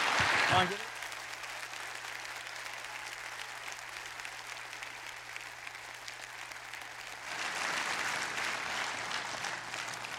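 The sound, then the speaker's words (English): A church audience at Traders Point applauds to welcome a guest speaker, steady continuous clapping that swells louder toward the end. “Would you please put your hands together at all of our campuses and give a warm Traders Point welcome to our friend, Caleb Kaltenbach.”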